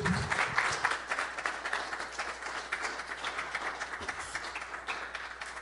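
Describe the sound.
An audience applauds to welcome a guest speaker, a licensed minister, with a steady, dense clapping wash that holds at an even level throughout.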